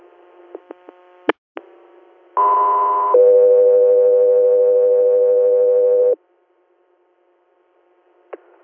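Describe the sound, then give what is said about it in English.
Radio dispatch paging tones: a few brief clicks and squelch bursts, then a steady higher tone and a longer, lower steady tone, loud and alone, ending in near silence with one more click. “stand back for tones”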